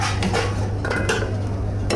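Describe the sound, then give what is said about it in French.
Cooked fish and potatoes are placed into a dish with a few light clinks and scrapes of utensils against crockery, over a low, steady hum. “Là, voilà, je mets le poisson avec les pommes de terre.”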